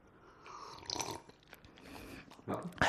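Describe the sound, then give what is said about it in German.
A person takes a sip of home-brewed beer, producing a few soft, wet slurping and mouth sounds that are faint and brief. “Ich rieche auch mal und jetzt probiere ich mal einen Schluck.”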